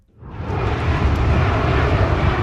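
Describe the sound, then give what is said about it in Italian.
Airplanes roar overhead as they fly low above a Los Angeles stadium on approach to land at the city's airport: a broad, rumbling jet noise fades in quickly and then holds loud and steady. “Sopra l'avveniristico SoFi Stadium di Los Angeles è un continuo volare di aerei in fase di atterraggio all'aeroporto della metropoli californiana”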